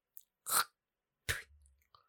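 Faint chewing comes as two brief, crunchy mouth bursts with a few tiny wet clicks around them, set apart by short silences.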